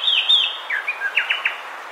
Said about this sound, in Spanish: Escuchamos al cucarachero sepia, que mide unos 17 centímetros y tiene el plumaje marrón oscuro con garganta blancuzca